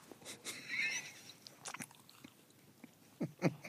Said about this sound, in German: Ich überlege gerade, ob du, wenn du jetzt die Waffel isst, ob mal kurz Ruhe einkehrt oder ob wir das nächste Spiel spielen.